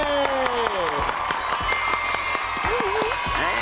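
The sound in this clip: Audience applause as a team receives certificates at a competition show. Steady clapping continues throughout, mixed with crowd cheering and voices.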